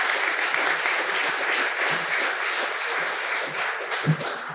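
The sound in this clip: Audience applause welcoming a speaker at a literary talk on Patrick White's literary legacy: dense, steady clapping that continues at an even level throughout, with one slightly louder clap near the end.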